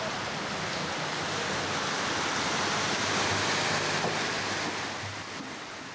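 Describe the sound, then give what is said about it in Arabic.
Dense, continuous roar of heavy rain during a rainstorm that damaged displaced people's camps in rural Idlib; an even wash of noise that holds steady, then eases a little near the end. “تعرضت عدة مخيمات في ريف إدلب لأضرار واسعة من جراء العاصفة المطرية”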